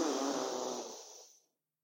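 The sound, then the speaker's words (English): A deep inhale during a guided breathing exercise, heard as a loud, airy hiss that gradually thins and fades over about a second and a half, followed by silence. “Let's take a big inhale.”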